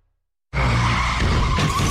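Car tyres skid with a sudden loud screech after a moment of silence. Steady high squealing tones ride over a rough low rumble that holds to the end, with no voices.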